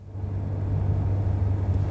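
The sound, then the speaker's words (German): Steady low engine rumble of a fast car driving along a dark crescent-shaped bay, a dense even drone with no distinct events and no voices. “Es war ein sehr schneller Wagen, mit dem wir durch die Gegend brausten.”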